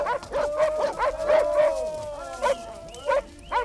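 Whimpering and yipping of hunting dogs accompanying hunters who carry a captured, bound old wolf on horseback during a wolf hunt: a steady run of many high, wavering whines and short yips, with no talk.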